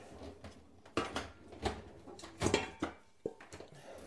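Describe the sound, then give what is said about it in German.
Pots clatter as someone rummages through cookware looking for another pot: a few irregular hard clunks and knocks, separated by quiet gaps. “Ich suche währenddessen einen anderen Topf.”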